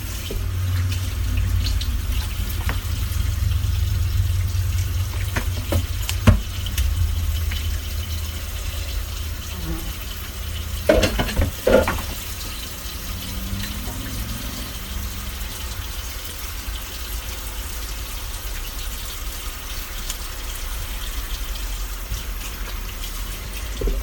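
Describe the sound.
Tap water runs steadily in a kitchen while hands are washed under it, a continuous hiss lasting the whole time, with a low rumble beneath and a few brief clatters.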